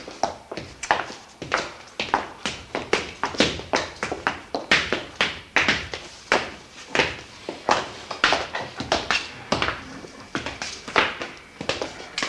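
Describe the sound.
Footsteps climb a staircase up from a cellar as many steady, evenly spaced taps that keep a regular walking rhythm at moderate loudness throughout.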